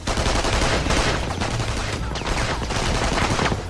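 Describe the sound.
Rapid gunfire as pursuers open fire on a rooftop: a dense, loud barrage of overlapping shots with no pause between them.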